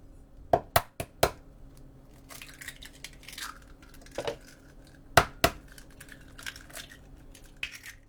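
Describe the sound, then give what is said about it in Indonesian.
Two eggs are cracked into a bowl for cake batter: a few sharp shell taps and cracks, clustered early and again later, with faint crackling and clinks between them and no talk. “Berikutnya kita membuat adonan kue. Pecahkan 2 butir telur ke dalam mangkuk.”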